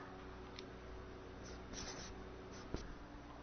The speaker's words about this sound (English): I'm just going to write them in English, okay? So you don't have to do it in Tibetan on your homework.